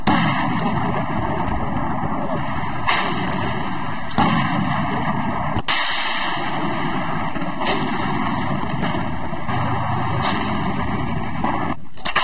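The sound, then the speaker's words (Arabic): Artillery shelling a town from high observation posts: a series of dull booms and sharp bursts, spaced a second or two apart, over a dense, constant roar of noise. “رميات مدفعية من المراصد العالية التي تكشف البلدة ركزت على المعاقل الرئيسية للمسلحين وعلى مناطق إمدادهم وانسحابهم.”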